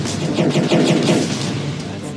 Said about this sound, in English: Oh no! The laser beams. As you know, stop ah. shooting. Can you stop shooting shit while we're trying to record a podcast, mate?